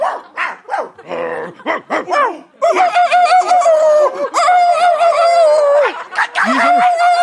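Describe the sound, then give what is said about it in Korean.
Dogs in a neighborhood bark wildly, with loud, rapid, overlapping barks and yelps that keep coming in a frantic, continuous burst. “제 비명 소리에 다른 동네 개들이 합세해서 미친 듯이 짖어댔고”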